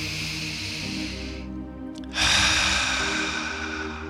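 A deep breath drawn in and released, a broad breathy rush that drops away briefly near the middle and then returns stronger, over a faint low steady tone.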